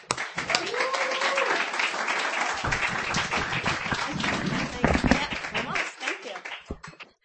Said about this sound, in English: That is Christian, ladies and gentlemen. Give him a hand.